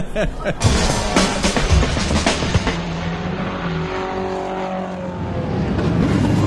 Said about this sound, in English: That's the sound of all the cars lining up on the grid as they've done their first lap, and they're off.